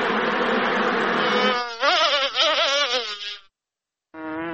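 Honey bees buzzing at a bee farm in Nawa or Nahr-e Saraj district near Lashkar Gah, Helmand: a steady, dense drone with a wavering pitch that cuts off briefly, then starts again.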